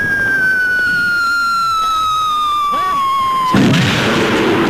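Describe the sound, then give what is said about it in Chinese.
An artillery shell in a war-film bombardment by Japanese forces whistles loudly in a long tone that falls slowly in pitch, then bursts into a loud explosion. “军长，快从虎峡到现在，日本人已经是第四次炮击了，弟兄们伤亡不少。”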